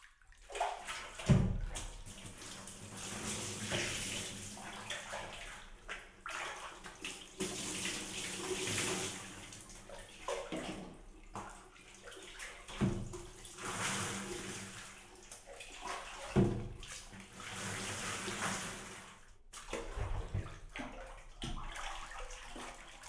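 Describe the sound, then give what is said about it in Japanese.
Hot water pours and splashes over a bather at a hot spring bath, a steady rushing stream for the whole stretch with surges and sloshes, no voices. “当たり前でしょ、温泉なんだから。ほら、早くお湯を浴びて、私たちも入りましょう。”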